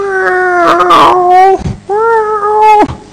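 A dog gives two long, loud howling whines, each a sustained wavering tone that dips sharply at its end, separated by a brief gap and heard alone.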